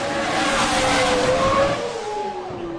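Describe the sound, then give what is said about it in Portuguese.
Whining engine roar of a classic Formula 1 race car in a PC racing video game at the Bahrain Grand Prix, loud and sustained, its pitch sliding downward toward the end. “50% de corrida e no Grande Prêmio do Bahrein. Primeira etapa do Campeonato de Fórmula 1 Clássicos”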